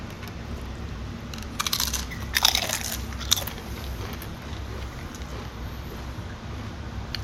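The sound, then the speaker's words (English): Crunching as chips, dipped before eating, are bitten: a few crisp, crackly bursts close together early on, fairly faint over a steady low background hum, then quiet chewing. “Let's do our max 3 chips, you know, doing 3 chip max and first chip down the hatch.”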